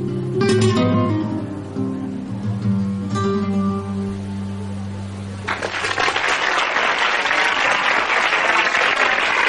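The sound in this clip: Music with singing and guitar plays at a restaurant, then a live band's audience breaks into loud, dense applause that carries on steadily to the end.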